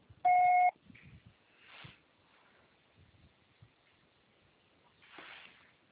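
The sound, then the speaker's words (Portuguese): A voicemail beep on a phone call: one loud, steady electronic tone lasting under half a second near the start, followed by faint, muffled line noise and low murmurs on a narrow telephone-quality line. “você só será tarifado após o sinal”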